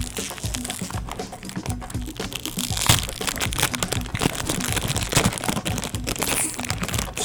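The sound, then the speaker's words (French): A foil bag being opened inside a box of noodles, with loud crinkling and crumpling that keeps up as many dense crackles for several seconds. “Moi, puis ouvrir un sac d'aluminium, là. T'aimes pas ça? C'est le son pas ou...”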